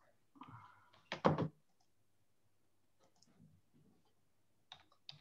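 Faint clicking of keystrokes on a computer keyboard as someone types: a brief louder cluster of clicks early on, then quiet, then a few scattered taps near the end.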